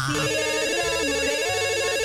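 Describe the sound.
An electronic telephone ringtone signals incoming calls during a live call-in giveaway, a loud, continuous warbling tone that pulses in a quick, repeating pattern with no voices over it.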